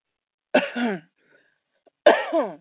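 Two separate bursts of a person coughing and clearing their throat, each rough and fairly loud, separated by about a second of near silence.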